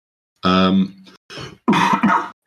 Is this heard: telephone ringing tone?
no

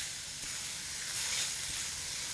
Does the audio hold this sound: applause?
no

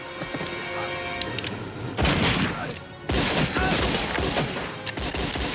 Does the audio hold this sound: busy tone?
no

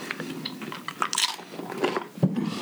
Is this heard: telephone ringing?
no

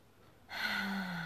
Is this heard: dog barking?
no

